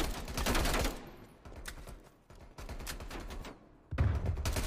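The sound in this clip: Dense gunfire in a multiplayer shooter video game: quick bursts of shots crowd together in a steady, continuous stream, with a sharper, louder burst near the end.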